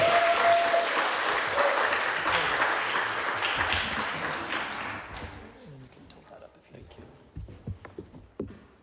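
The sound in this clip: Audience applause welcomes a pastor onto the stage at a church event. Dense clapping starts loud and gradually tapers off over several seconds, then thins to scattered sounds as a voice begins speaking.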